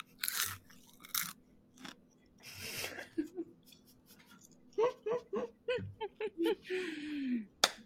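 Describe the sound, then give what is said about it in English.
Popcorn crunched and chewed from a small ceramic dish, many quiet, irregular crisp bites and chews with soft vocal murmurs toward the end. “Wait, we need the ASMR on the popcorn.”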